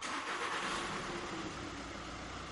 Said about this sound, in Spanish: Es una pequeña furgoneta blanca. Avanza hacia adelante.